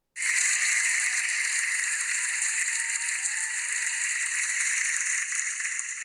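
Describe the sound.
Canned applause from a fake audience sound effect, a dense, steady wash of clapping that starts abruptly and holds at a loud, even level for about six seconds with no talk over it.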